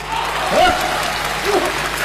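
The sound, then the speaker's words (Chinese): Audience applause during a comic dialogue performance on stage, continuous clapping with a voice speaking faintly over it. “大伙儿还给鼓掌呢。 观众鼓励我呀。”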